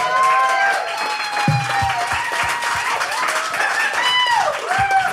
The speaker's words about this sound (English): I guess what we probably should say is let's give a round of applause for Chair Jane